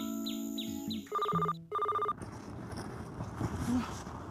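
A telephone rings on Saipan, two short, bright electronic ringtone bursts in quick succession, preceded by a mix of other tonal sounds and followed by a noisy, rustling background.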